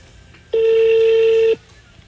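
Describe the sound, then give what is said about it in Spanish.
A steady telephone tone from a voicemail system transferring a call: a single clean, unwavering beep of about one second, standing out loud and alone against faint background hiss before and after. “Sistema correo de voz. Su llamada está siendo transferida al...”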